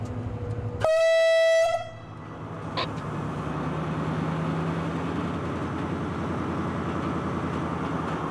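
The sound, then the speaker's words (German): A shunting train sounds one long, loud horn blast, then moves off slowly at walking pace, about 5 km/h, with a steady low rumble that continues to the end. “Ja, Rangierfahrt erlaubt, geht los.”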